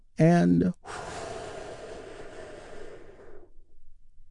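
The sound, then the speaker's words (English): A deep breath during a guided relaxation exercise: a long, airy rush of air lasting nearly three seconds and slowly fading out, preceded by a short voiced sound. “we begin with a big, deep healing breath. All together, here we go.”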